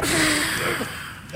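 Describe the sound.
A man drawing in smoke from a freshly lit pipe, a long steady breathy hiss lasting just over a second, with a faint tone at the start and a brief sound at the end.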